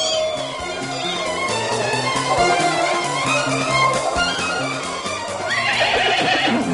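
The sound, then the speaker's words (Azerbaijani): A horse snorts and whinnies, loud and steady throughout, with a breathy burst of noise near the end. “Susun, at fınxırdı.”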